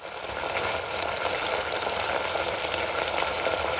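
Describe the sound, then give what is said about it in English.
Risotto sizzling in a pan partway through cooking: a steady, even crackle and hiss of frying that carries on without a break from start to end, with no voices. “So this is what my risotto sounds like partway through cooking.”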